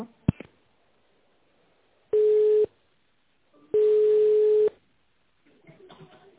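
A telephone ringing tone plays while a number is dialed: two steady, mid-pitched tones separated by a silent gap, the first short and the second about twice as long.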